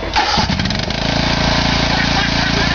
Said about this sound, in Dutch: En dat gaat vandaag over grasmaaien. En hokje denk je, grasmaaien, ja, dat is toch hartstikke makkelijk. Maar nou, op zo'n zitmaaier is het wel een uitdaging, kan ik je melden.